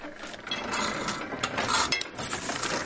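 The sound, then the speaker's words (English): Dense mechanical clattering and rasping of a nearly century-old, motorless, foot-powered 360-kilogram platen letterpress printing designs onto paper. The grinding, ratchet-like noise runs steady and fairly loud throughout, with no talk. “The company uses a 360-kilogram Platon letterpress machine to make its creative designs.”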